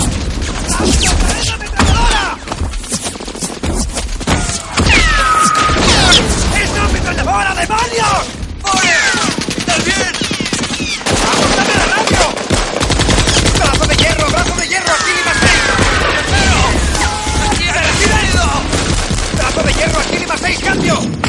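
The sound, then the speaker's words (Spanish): Heavy machine-gun fire in a film battle scene, with shots coming from trees just after rain has stopped. A dense, loud barrage of rapid bursts runs unbroken from start to end. “estamos recibiendo fuego desde los árboles en el punto cruz marcado! ¡Ametralladoras y cohetes!”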